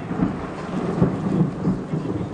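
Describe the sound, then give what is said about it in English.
Fierce rain pouring at night over a village, a dense, loud, steady hiss with low rumbling swells beneath it and no voices. “Soon the sky opens and the rain is fierce, and I half wonder if God's chosen this night to drown out the wickedness of the village.”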